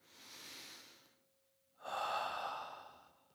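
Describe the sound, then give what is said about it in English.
Loud, deliberate human breathing: two long, airy breaths separated by a short pause, the second stronger and rushier than the first. “Like you can actually hear breath. That's good.”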